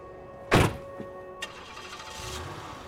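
A car door thuds shut loudly as a person gets into a car, followed by a couple of faint, brief clicks and a low, quiet rustle with no talking.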